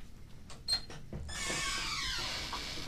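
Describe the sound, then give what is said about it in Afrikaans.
A front door of a house being opened: a few faint clicks and a short squeak, then a soft, steady rushing noise that carries to the end. “Ek sal die voordeur oopmaak.”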